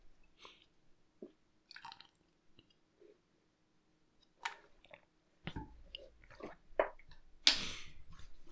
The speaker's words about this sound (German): Ich trinke eben was.